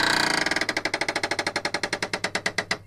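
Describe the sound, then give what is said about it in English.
Prize wheel spinning on a quiz game show, giving a fast, even run of many sharp ratcheting clicks that carries on for the whole stretch with no talk over it. “Shall we spin the wheel again? Yeah, go ahead. I really want the wheel to get you out.”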